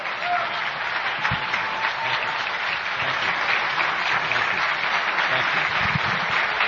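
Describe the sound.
Audience applause at a political rally, a dense, steady clapping that holds at an even level for the whole clip.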